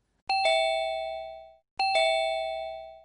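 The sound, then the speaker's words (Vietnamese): An electric doorbell on an old door rings twice, each ring a bright bell-like chime with a quick double strike that rings out and slowly fades. “Chúng tôi nhấn chuông cửa.”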